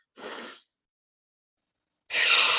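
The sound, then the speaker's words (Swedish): Deep breath in through the nose and out through the mouth: a short, soft, airy inhale, a gap of silence, then a louder, brighter rush of exhaled air. “Så vi börjar ta 3 djupa andetag in genom näsan och ut genom munnen.”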